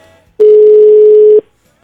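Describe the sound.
Telephone call tone during a phone call attempt: a single loud, steady electronic tone at constant pitch lasting about a second, then silence.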